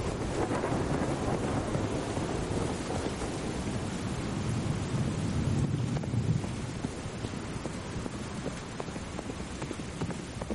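A dense wind and rain storm at night makes a steady, rushing wash of noise. A horse's quick hoofbeats pound through it on a muddy road.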